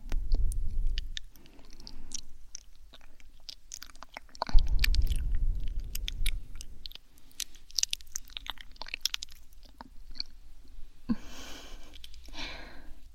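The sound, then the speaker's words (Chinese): Chewing of cantaloupe melon pieces: wet, crunchy bites and squelching mouth sounds in a long irregular stream, with a few louder crunches and no talk. “哈密瓜还剩了几块，都得乖乖吃完哦。”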